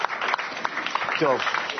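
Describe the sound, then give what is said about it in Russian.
An audience clapping in a burst of applause, a dense, steady patter of many hands with voices briefly heard through it. “Давайте скажем им. Похлопаем.”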